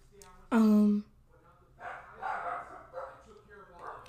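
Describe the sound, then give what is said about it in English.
A dog gives one loud, sharp bark at home, and then a person starts talking. “sorry about my dogs in the background if you can hear them”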